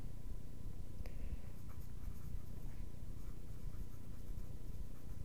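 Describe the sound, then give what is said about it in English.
A pen or pencil scratches quietly across paper as someone writes by hand, a faint and steady scribbling under a low, constant background hiss. “I'm sorry, I'm writing this down as I go.”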